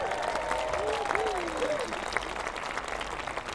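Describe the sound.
Audience applause welcoming a musician, a thick, continuous stretch of clapping with a few whoops rising above it early on.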